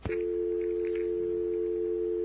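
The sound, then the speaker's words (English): A telephone dial tone hums steadily, a single unbroken low tone that holds at constant loudness from start to finish. “Dial tone.”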